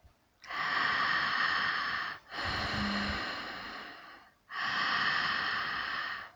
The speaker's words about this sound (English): Inhale from your pelvis up along the spine into your heart. Exhale from your heart to the pelvis at the front of the body.